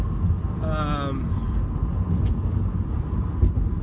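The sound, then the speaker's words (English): A car engine and road rumble drone steadily while the vehicle is driven, a low, continuous background noise that holds level throughout. “sorry, driving.”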